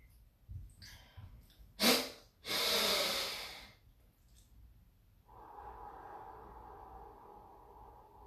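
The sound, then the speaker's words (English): Deep breathing through the nose during a breathing exercise: a brief sharp inhale followed by a long, loud rushing exhale, then quiet, with a steady low tone continuing afterward. “Deep breaths from the nose.”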